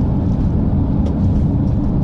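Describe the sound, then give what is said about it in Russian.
Steady, dense rumble of car tyres rolling over a rough road surface, a constant low roar with no breaks and no voices. “Дорога шершавая. Вы слышите шум какой, да?”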